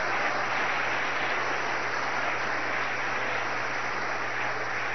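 Applause from an audience during a church service, a steady dense wash of clapping that runs unbroken for the whole stretch at moderate level, with a low steady hum beneath and no voices.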